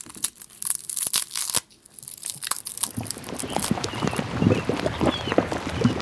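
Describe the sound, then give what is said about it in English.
Garlic is peeled with dry, crackly tearing and crinkling of papery skin, then gives way to mud bubbling, heard as a dense, continuous stream of soft, wet pops and blips. “that's the sound of someone peeling garlic and then the sound of mud bubbling”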